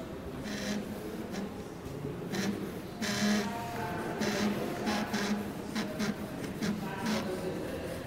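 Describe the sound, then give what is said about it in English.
A computer-controlled AI drawing machine sketches freehand, giving many faint scratching, whirring strokes in an irregular rhythm over a low, constant hum. “That's the sound of Aeron, an artificial intelligence program for art making developed back in the late 1960s by the artist Harold Cohen. The program essentially allows a computer to draw freehand.”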